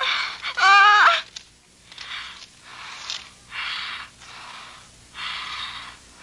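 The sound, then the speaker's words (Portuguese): Heavy, ragged breathing from a person in a dubbed film scene. It opens with a voiced, gasping intake, then several loud, noisy breaths follow at an uneven rhythm, with no talk. “Respira aí, respira.”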